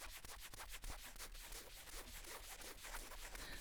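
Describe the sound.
Soft, steady rubbing strokes along a stick, close and scratchy, continuing without pause at a quiet level, with no voice.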